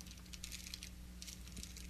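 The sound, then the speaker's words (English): Faint crinkling of a protein bar wrapper being unwrapped, with irregular light crackles and rustles over a low steady hum. “Is there a wrinkling package sound? Somebody's unwrapping something.”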